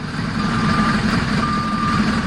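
Reversing beeps from a heavy goods truck: a steady high tone sounds in repeated segments over a continuous low engine rumble, with no voices.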